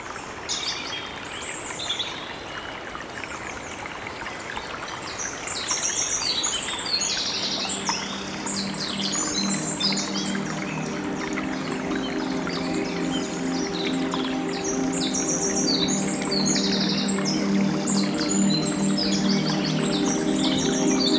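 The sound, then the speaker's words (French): A small stream runs through a forest with a steady babble of water, while many birds chirp and sing throughout. “Ambiance du petit cours d'eau qui traverse la forêt de Grano.”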